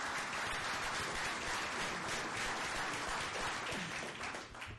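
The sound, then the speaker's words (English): Audience applause at a public meeting, with dense, even clapping sustained for several seconds before thinning slightly at the end. “give a big hand to Ed for coming all the way”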